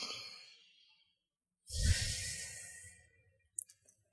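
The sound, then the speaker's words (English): A person takes a deep breath during a guided tapping exercise. A faint inhale is followed after a pause by a long, loud, airy exhale like a sigh, then a few tiny clicks. “And take a deep breath.”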